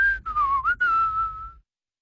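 A person gives a loud whistle: one sustained, clear tone that dips in pitch, rises again through brief breaks, then holds level before stopping abruptly, with silence after.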